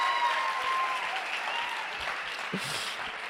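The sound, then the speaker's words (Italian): Applause from an audience at a church gathering with baptisms, honoring a young man: dense, steady clapping that holds at an even level for the whole stretch, with no voices standing out. “quindi facciamo un applauso”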